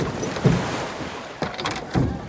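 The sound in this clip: A boat rocking on ocean water off Hawaii, with three soft splashes or knocks against the hull over a steady wash of water and wind noise.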